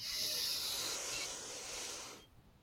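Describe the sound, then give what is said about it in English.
Someone takes a long, slow, deep breath in through the nose during a meditation, a sustained airy hiss that holds for about two seconds and then stops. “let's take a long, slow, deep breath in through our nose, long, slow,”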